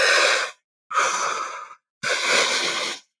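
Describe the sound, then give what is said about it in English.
Tri-active breathing through the mouth: two breaths drawn in, first into the belly and then into the chest, then one breath pushed out. Three loud, airy breath sounds with short gaps between them, heard alone. “my favorite one to do is called the tri-active breath. So that breath is into the belly, up into the chest, out through the mouth. So it's all through the mouth. So it's two in, one out. So it sounds like this.”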